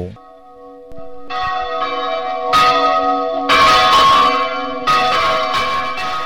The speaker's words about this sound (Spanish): ¿ven qué es eso? Ah, no, eso se llaman campanas. De iglesia, no, catedral. No, están catedral, llamando para catedral, la misa